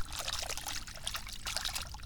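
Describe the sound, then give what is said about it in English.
Water trickles and sloshes steadily as a found golf ball is rinsed off at a sandbar, a continuous bright splashing with no pauses and no voices. “There's Mati tracks, and I've got a golf ball. Let's get it. Yeah. Yep. Wash it off.”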